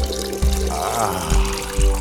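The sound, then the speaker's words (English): Water running and splashing as a glass is filled, a steady gurgling trickle lasting about two seconds, fairly loud, with no talk. “Honey, can you get me a glass of water? Sure, no problem.”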